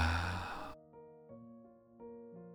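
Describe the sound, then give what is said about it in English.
Deep breathing: one long, breathy rush of air at moderate loudness ends abruptly and gives way to soft, sustained musical tones that swell gently a few times. “Would you breathe in again and breathe out?”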